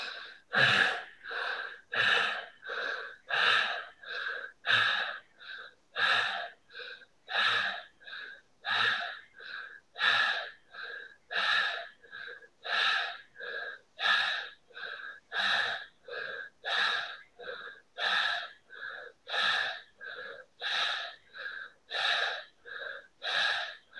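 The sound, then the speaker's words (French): Forceful bhastrika yoga breathing in a guided session, with many sharp, rapid breaths pumped through the nose in a steady, even rhythm. Each breath is a hissy burst of similar loudness, with no talk over them. “Expire. Refaites un dernier bastrika.”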